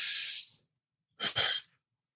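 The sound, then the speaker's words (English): A deep belly breath drawn slowly through the body, heard as two soft, airy breathy hisses separated by a short silence, with no talking. “But when we start to breathe deeply into our belly, like,”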